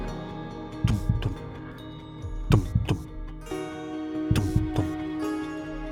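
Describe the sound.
Heartbeat sound effect: three double thumps, each a soft lub-dub pair, spaced a couple of seconds apart over a sustained, droning musical bed.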